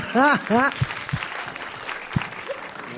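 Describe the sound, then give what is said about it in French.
Audience applause and cheering for a guest arriving on a show: two short whooping cheers at the start over a steady wash of clapping that carries on to the end. “S'il vous plaît, faites du bruit pour Leslie.”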